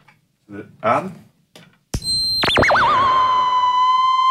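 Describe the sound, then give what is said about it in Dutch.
A theremin, the electronic instrument played by moving hands near its antennas, follows brief talk and soft clunks with a pure tone that swoops down in a wide, wobbling vibrato before settling into a steady, loud sustained pitch. “Dan raak ik het aan. Als ik deze linker antenne loslaat... Hè? Dan krijg je volume. En als ik met mijn rechterhand dichter ga... Allee! Wordt het hoger en ga ik verder.”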